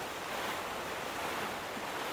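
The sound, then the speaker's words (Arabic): A stormy sea roars with heavy waves and strong wind around a fishing boat near a village, a dense, unbroken rush of noise with no voices. “العاصفة شديدة، هل نعود إلى القرية؟”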